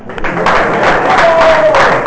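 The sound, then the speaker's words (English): An audience claps at a spiritual talk, a dense, even applause that starts abruptly and continues for about two seconds at a fairly loud level. “Very good. Give a big clap.”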